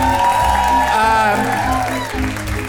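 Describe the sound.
Applause and cheering from a live audience for game show contestants at a live stage show, a dense, steady wash of clapping that fills the whole clip at full loudness.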